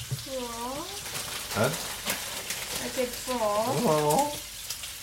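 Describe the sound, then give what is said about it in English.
A magnetic milk frother, a small whisk spun and centred by a magnet, froths milk with a continuous noisy whirring and sizzling, marked by a few small clicks, while a voice is heard over it at times. “the frother, it's just got a little gizmo in there that swizzles round and round, little bit like a whisk, a mini whisk, and it's centred by a magnet.”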